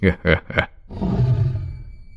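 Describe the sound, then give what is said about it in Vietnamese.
A tiger roars loudly with a rough, growling call that holds for over a second and then tapers off. It follows three short, voiced bursts. “Con hổ gầm lên một tiếng thật lớn”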